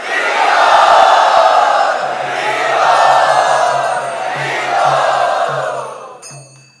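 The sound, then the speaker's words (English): A crowd cheers loudly in welcome, a sustained roar of many voices with whoops. It swells in a few waves and fades out at the end. “Let us very enthusiastically and loudly welcome Shamdas Prabhu.”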